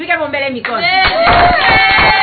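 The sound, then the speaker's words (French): Women clap and cheer at a prenatal consultation session for pregnant women. Speech comes first, then dense rhythmic clapping joins with raised, cheering voices. “Dans cette atmosphère de cris de joie et des applaudissements des femmes qui se déroulent les différentes séances de consultation prénatale.”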